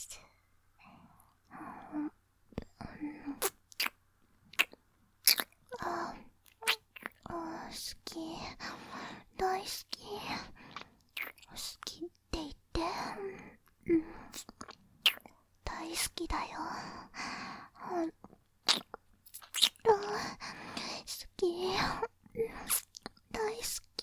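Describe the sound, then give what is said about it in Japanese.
ASMR ear-licking mouth sounds: many wet smacks, slurps and sharp clicks in an irregular rhythm, mixed with soft whispering and breathy sighs from a female voice. “お耳も舐めちゃう。いただきます。”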